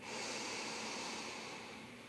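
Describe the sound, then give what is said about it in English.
A deep inhale through the nose during a guided breathing exercise: a faint, steady, airy rush of breath that holds for about two seconds and tapers slightly at the end, with no talking. “Let's take another nice deep inhale through the nose.”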